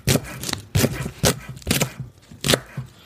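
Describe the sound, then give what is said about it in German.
Knife strokes finely chopping four spring onions: several crisp, percussive cuts at an uneven pace, each a sharp burst with light scraping between them, no voices. “dann nehmen wir uns die Frühlingszwiebeln vor. Das waren ja 4 Stück. Schneiden wir jetzt auch immer eben die auch möglichst fein. Klein schneiden.”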